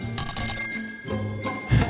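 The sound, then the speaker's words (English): A hand-rung bell of the bicycle kind gives a few bright metallic rings. The first shimmering ring lasts about a second, and quicker strikes follow it. “First, hold on, let me get my bell. Hold on. I can figure out how to work it.”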